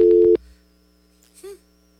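A telephone busy tone on a call that failed to connect: one short, steady electronic beep at the very start, followed by near silence.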